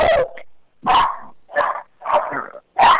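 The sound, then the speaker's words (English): A dog barks in five rough bursts separated by short pauses, some sharp and some drawn out into growly, whining tones. “sorry, I got my dog.”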